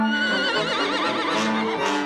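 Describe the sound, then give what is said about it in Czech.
A horse rears and neighs loudly: one long, quavering whinny with wavering high tones, sustained and loud for about two seconds. “Koně se kolem rozprchli jako dým, ale jeden z nich se vzepjal, hromově zařičel a začal po mně ve vzduchu bít kopity”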